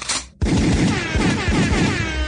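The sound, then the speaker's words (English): Rapid gunfire sound effect, played on request during a conversation about club tracks. A quick, loud run of many sharp bangs rolls on without a break after a short silence. “could I have a gunshot and an air horn?”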